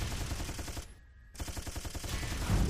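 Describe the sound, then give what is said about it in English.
Machine gun fire in a video game rattles in rapid, sustained automatic bursts. It stops for a short gap, then resumes just as dense and loud. “I got a machine gun.”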